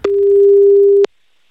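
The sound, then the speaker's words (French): A telephone tone sounds during a live call to a listener, a single loud, steady, pure beep of about one second that cuts off abruptly into silence. “On appelle Manon en direct. Puis, allô ? Non, on était en double appel, je pense.”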